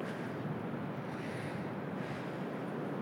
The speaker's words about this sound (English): I'm getting closer to the actual beach where the waves are breaking and the rock pools are a bit deeper here.